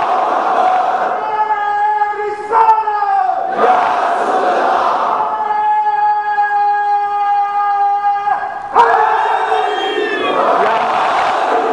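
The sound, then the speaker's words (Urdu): A crowd at a religious gathering chants slogans in unison: loud, long drawn-out voiced calls from many people, held steady for several seconds at a time and broken by short gaps. “بیٹا کوئی جوان تینوں نعرے لگاؤ تو مجھے بڑا لطف آئے گا آج.”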